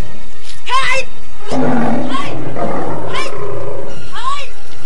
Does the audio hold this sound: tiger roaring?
yes

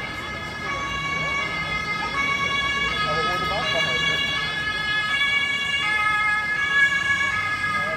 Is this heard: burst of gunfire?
no

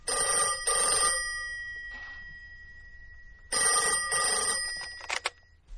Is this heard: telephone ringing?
yes

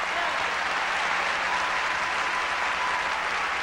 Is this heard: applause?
yes

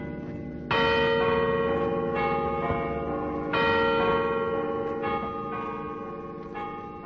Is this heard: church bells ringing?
yes

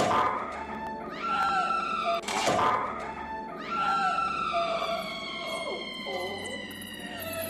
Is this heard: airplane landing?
no

